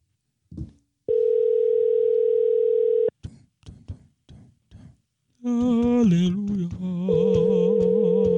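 A telephone call being placed: a steady electronic tone held for about two seconds, then a few sharp clicks, then a longer tone that overlaps with wavering, warbling sounds.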